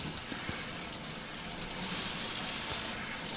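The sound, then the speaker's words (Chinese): Water runs steadily into a sink with a continuous splashing rush. The flow swells slightly louder midway, then settles back. “好，如果你已经猜到的话，很棒，这是水槽哦。”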